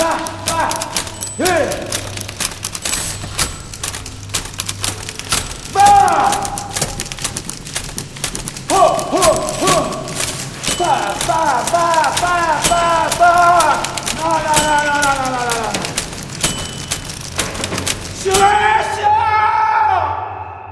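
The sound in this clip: Typewriters clatter nonstop in rapid, irregular key strikes for many seconds, with voices rising over the dense mechanical tapping.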